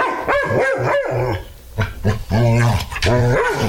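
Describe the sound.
A dog at a pet grooming spa barks a few times in short, sharp bursts, and people talk over and around the barks.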